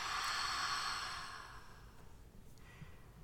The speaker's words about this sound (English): Take a gentle breath in and out.